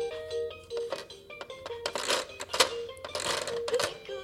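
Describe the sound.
A battery-powered toy ladybug switched on, playing a tinny electronic tune with clicking, rattling bursts as it rolls along on its wheels, fairly steady throughout.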